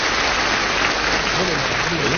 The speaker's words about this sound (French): On applaudit pour les succès qu'il vous a écrits.